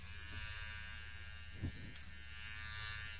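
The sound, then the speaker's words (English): Electric shaver buzzing steadily while shaving a person, a continuous droning hum at an even level throughout, with one brief bump partway through and no talk. “All right, get over here close to me so I can shave you.”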